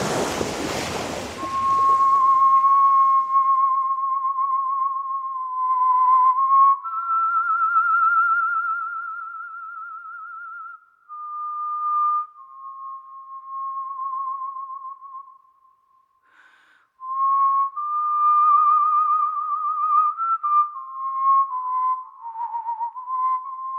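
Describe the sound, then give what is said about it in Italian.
Human whistling of a melody: a clear, pure tune with sustained notes and gliding pitch shifts, heard loud and alone, opening over a brief rush of wind-like noise. “il fischio è stato sdoganato, non è più la voce del diavolo”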